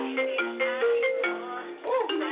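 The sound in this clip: A phone ringtone plays for an incoming call: a short melody of clear, steady electronic tones stepping between pitches, fairly loud and narrow-sounding, with no talk over it.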